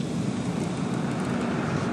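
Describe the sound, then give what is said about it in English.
Steady wind rush and road roar come through the opened front windows of a basic car driving in Cork. The broad, even roar holds at a constant level with no talk. “I'm opening the windows now.”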